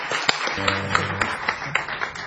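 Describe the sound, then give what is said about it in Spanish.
Audience clapping in a steady, even beat, with about eight sharp claps spaced evenly apart and a brief low tone sounding underneath in the first half. “Un aplauso para Luis. Aplauso para el querido Luis.”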